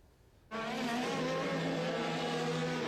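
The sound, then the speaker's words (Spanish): IndyCar race cars racing through the streets of Washington: a loud, high-revving engine roar bursts in after half a second of quiet and holds steady, with a sustained tonal whine. “Y así daba inicio Donald Trump a la carrera de alta velocidad de IndyCar por las calles de Washington”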